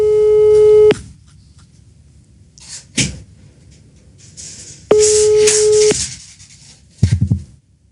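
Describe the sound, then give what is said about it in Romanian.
Telephone tone after dialing a call: two loud, buzzing tone bursts about four seconds apart, with rustling and brief thumps between and after them. “Să o sunăm direct. 485, ăsta e.”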